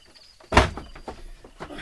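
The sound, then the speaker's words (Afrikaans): A door is pushed shut with one sharp thud, followed by a few faint knocks and clicks at a lower level. “Maak toe die deur. Dit is koud nou so skielik.”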